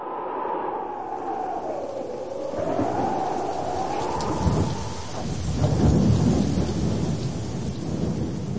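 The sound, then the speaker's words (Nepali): Heavy rain falls during a thunderstorm, a dense, steady hiss that runs unbroken throughout, with low thunder rumbling underneath that swells briefly toward the end. “त्यसपछि पानी पर्न थाल्यो।”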